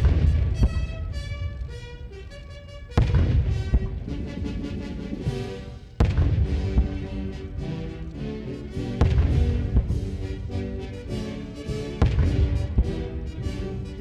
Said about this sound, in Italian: Avete sentito appunto le salve di cannone